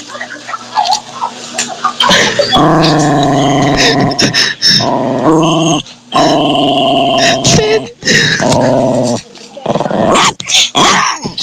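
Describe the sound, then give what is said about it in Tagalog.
A dog growls and barks in long, rough, loud bursts that start about two seconds in and continue with short breaks, while people talk around it. “Ba't tumahol?”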